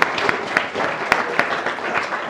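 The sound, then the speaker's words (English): A church audience gives a round of applause, a steady wash of many hands clapping, with a few sharper individual claps standing out above it. “I think we should say to Linda a very big thank you and a big round of applause for producing.”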